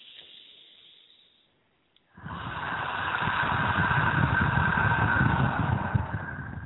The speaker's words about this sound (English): Let's do three deep breaths in through our nose, out through our mouth.